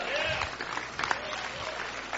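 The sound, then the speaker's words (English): Audience clapping at a church gathering, a steady wash of many hands with some voices rising above it. “Come on, give Jesus a big hand clap.”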